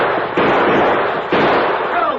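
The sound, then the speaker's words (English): Gunshots in a western drama on a trail near a camp: two loud, sharp blasts about a second apart, each trailing off in a rough, noisy decay. “Stop or I shoot!”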